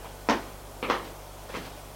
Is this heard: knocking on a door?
yes